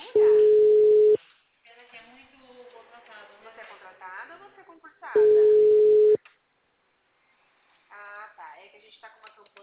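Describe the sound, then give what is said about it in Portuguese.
Telephone tone on a line with frequently dropped calls: two steady, low, one-second beeps about four seconds apart, with people talking between them. “Tá caindo ligação à torta e à direita.”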